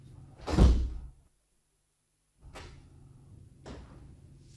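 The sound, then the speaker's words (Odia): A door being shut at home gives one solid, low thud, then a pause of silence and two fainter clicks over low background noise. “ହଉ କବାଟ ବନ୍ଦ କଲି।”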